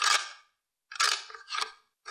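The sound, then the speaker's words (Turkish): A key turns in a door lock, making a few short bursts of bright metallic scraping and clicking separated by brief pauses. “Ve anahtar hala dönüyordu.”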